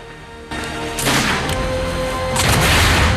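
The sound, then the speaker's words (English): Gunfire in a film scene as a Huron shoots at people wading through lake shallows toward moored canoes. A few loud, sharp blasts with rumbling tails stand out over a steady background. “They wade through the shallows towards the canoes, coming under fire from a Huron.”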